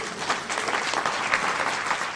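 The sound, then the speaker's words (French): An audience applauds with steady, dense clapping that holds at an even level throughout, with no other sound over it. “Bon, vous pouvez m'applaudir moi aussi, parce qu'il n'y a pas de raison.”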